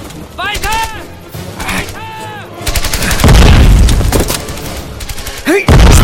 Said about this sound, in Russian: Выпущенный из миномета снаряд взрывается в нескольких метрах за воронкой.